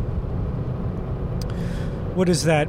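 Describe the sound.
Inside a car while driving, a continuous low road rumble holds steady throughout, and a voice speaks briefly near the end.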